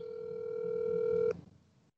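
Telephone dial tone ahead of a prank call to a friend's voicemail: one steady, pure hum holds for about a second and a quarter, then cuts off abruptly, leaving faint background noise.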